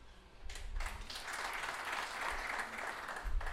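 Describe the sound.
Audience applause at a comedy talk show: a burst of many hands clapping that starts sharply, holds steady at moderate loudness for about three seconds, then cuts off.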